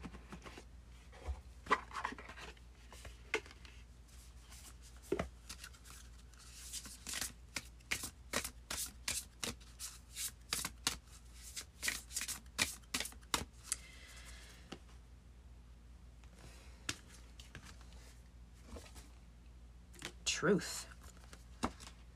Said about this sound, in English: So let's pull a spellcasting oracle card for you.